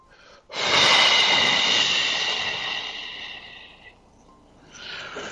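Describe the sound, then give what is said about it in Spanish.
Deep breath in a guided breathing exercise: one long, steady rush of air lasting about three seconds tapers off, then a second breath begins near the end. “Entonces vamos a inhalar en azul. Eso es, y vamos a exhalar inseguridad.”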